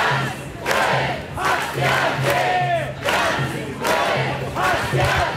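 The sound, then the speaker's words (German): A protest crowd of thousands chants in Cologne at a demonstration against the AfD's election win in Saxony-Anhalt. Loud, rhythmic bursts of massed voices repeat in a steady pattern, with a low tone droning underneath. “Richtig viele Leute sind auf die Straße gegangen. Laut Polizei sollen es rund 9000 gewesen sein. Die Veranstalter sprechen von deutlich mehr und alle haben sie gegen den Wahlsieg der AfD in Sachsen-Anhalt demonstriert.”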